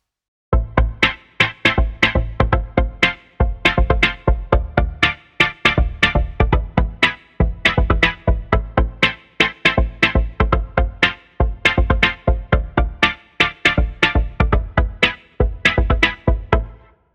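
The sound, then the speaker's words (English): Vocoder output with a sequence of synthesizer chords gated by a drum beat: rhythmic, loud pulses of chord tone chopped into a steady, repeating pattern, with no voices. “Now, when we feed those two audio signals into the vocoder, what comes out sounds like this.”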